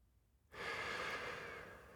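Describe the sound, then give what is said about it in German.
A deep breath drawn in amid a dune landscape of reed grasses and wild rose bushes: a single loud, airy, unbroken inhale lasting about one and a half seconds after a moment of near silence. “Ich nehme einen tiefen Atemzug und fülle meine Lungen komplett.”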